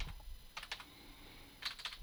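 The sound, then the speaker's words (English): Someone types on a computer keyboard, producing quiet, irregular clicks in small uneven clusters. The keystrokes sound light and faint, with no voices. “I didn't type any of those words correctly.”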